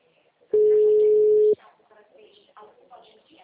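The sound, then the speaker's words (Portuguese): A telephone busy tone after a dropped call: a single steady, mid-pitched beep about a second long, followed by a person speaking. “Oi, caiu a ligação.”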